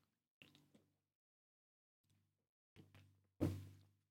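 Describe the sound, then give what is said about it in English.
A can of sparkling water cracked open: a few faint taps and clicks, then a sharp pop with a short fizzing hiss that fades away, quiet and without talk. “Ooh, man, it's been a while since we cracked open a can into a microphone.”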